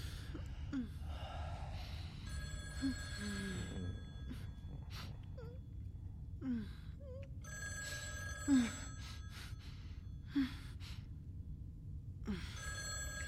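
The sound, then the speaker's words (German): Telephone bell ringing in repeated bursts of bright, sustained metallic tone, separated by pauses, with faint breathy vocal sounds between rings. “Vielleicht solltest du rangehen”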